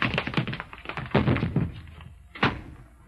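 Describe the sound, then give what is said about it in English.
Thumps and thuds of a person tripping over their own feet and falling, with a burst of knocks over the first second and a half, then one more heavy thump near the end. “Tripped over my own feet. I could have had her, but I tripped over my own feet.”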